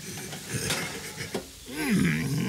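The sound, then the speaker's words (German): A metal baking tray clatters as cookies are taken out of the oven, with a few clinks and scrapes followed by a sustained, wavering tone. “Jetzt hol die Kekse aus dem Ofen.”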